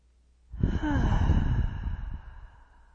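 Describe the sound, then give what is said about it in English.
An audible exhalation during a guided breathing meditation: one long, breathy sigh that swells quickly, holds steady, then slowly fades out. “Maybe even a few audible exhalations.”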